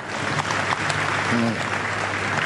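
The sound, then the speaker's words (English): Audience clapping for a woman at a religious gathering, a continuous patter of many hands at a moderate level, with a voice briefly rising over it partway through. “Clap for her.”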